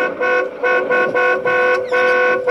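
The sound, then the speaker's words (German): A car horn honks repeatedly as the car drives alongside a police patrol car in the street, several loud, steady-pitched blasts separated by short gaps, with no talking. “Und hupe, hupe. Mach ich.”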